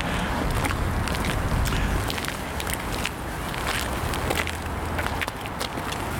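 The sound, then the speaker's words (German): Footsteps of people walking along a street toward the next corner: a steady run of soft scuffing steps over continuous noise. “Und wir gehen jetzt hier einmal zur nächsten Ecke da drüben.”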